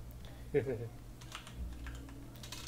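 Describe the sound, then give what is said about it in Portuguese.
Keystrokes on a computer keyboard as a search is typed into the GNOME dash: a short cluster of quick, light taps, with the firmest hit near the start and softer clicks after it. “se eu abrir aqui o, o dash do Gnome e digitar Friday Show, deixa eu até fazer o teste aqui.”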